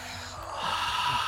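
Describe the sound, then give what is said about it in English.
A deep breath drawn in, one continuous airy inhale lasting just over a second that swells slightly louder toward its end, with no words spoken. “Let's take a deep breath together. I think we both need it.”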